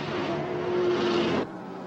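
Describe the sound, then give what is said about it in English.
A bus driving across a bridge at night: a loud, broad roar of engine and road noise with a faint steady hum that drops sharply to a quieter rumble about three-quarters of the way through. “The bus crosses a bridge. At night.”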